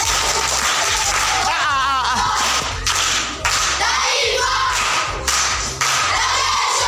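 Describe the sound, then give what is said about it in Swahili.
Applause and crowd noise from the studio audience for quiz show contestants, a loud, steady wash of sound over a low, thumping beat that briefly dips a few times. “Makofi kwa wajomba.”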